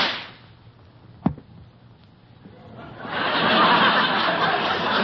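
A single sharp gunshot crack, fired at a rabbit sitting on a rock, stands out against a quiet background. Afterwards a broad, sustained rush of noise swells up and holds.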